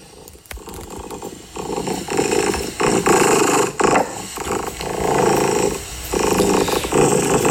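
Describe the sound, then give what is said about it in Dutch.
A contented pet cat purring, a loud, low, rumbling purr that swells in repeated pulses with each breath in and out, continuous and close, with no voices. “Dit is het geluid van mijn kat. Ja, dat is een heel goed geluid. En een heel tevreden kat, kunnen we wel concluderen.”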